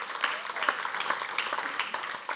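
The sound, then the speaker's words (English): Applause from a church audience: dense, steady clapping from many hands, moderately loud and sustained for the whole stretch without pauses. “Come on, let's give God a round of applause.”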